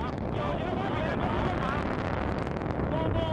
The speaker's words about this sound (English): This is the sound of China launching a rocket into space.